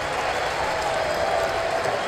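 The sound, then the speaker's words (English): Baseball stadium crowd cheering for the pitcher in the top of the first inning, a steady, dense roar of many voices and scattered clapping that holds at an even level throughout. “Crowd getting behind Malley, looking for one more strike and limiting this damage to one run in the top of the first inning.”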